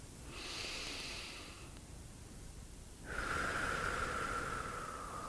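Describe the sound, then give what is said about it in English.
Slow, deep breaths drawn into the belly during a guided meditation: two long, soft, airy breaths, the second louder than the first, with a faint steady tone sounding under it. “So starting by just taking some nice deep breaths into your belly.”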